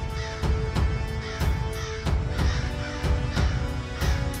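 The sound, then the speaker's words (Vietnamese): A black crow perched atop a roadside tree caws mournfully, sending out many harsh, evenly spaced caws at a steady rhythm throughout. “người ta thấy một con quạ đen bay đến. Nó đậu trên ngọn cây, kêu lên những tiếng thảm thiết nghe rợn cả người.”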